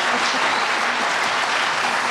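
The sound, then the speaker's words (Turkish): An audience applauds at a live Turkish folk music performance, with dense, steady clapping that holds at an even, loud level from start to finish. “Selçuk Murat Kızılateş'e bir alkış rica ediyorum bu güzel sürprizi için”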